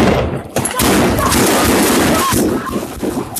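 Gunshots fired during a tense armed standoff in which a gunman holds a child, heard as a few sharp cracks inside a dense, continuous roar of loud noise.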